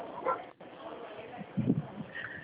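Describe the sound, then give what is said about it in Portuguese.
A dog barking faintly in the background of a phone call: a few short, muffled barks over thin, band-limited line audio, with low indistinct voices around them. “tinha um cachorro latindo”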